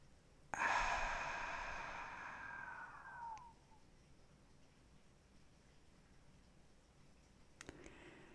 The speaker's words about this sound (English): One more deep inhale through your nose. And exhale through your mouth.